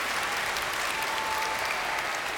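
An audience applauds two children, many hands clapping in a smooth, even rush that stays constant from start to finish, with no voices standing out.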